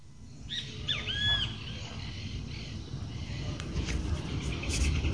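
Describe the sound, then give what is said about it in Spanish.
Birds singing in the morning after a storm: a few faint, high whistled chirps early on, over a steady low rumbling background that continues throughout. “Continuamos con las voces de la mañana, los pájaros y su alegría después de la tormenta.”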